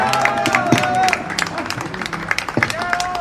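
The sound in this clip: Scattered applause from an audience at a cultural gathering in a bar and arts space, uneven claps crackling under a woman's voice speaking throughout.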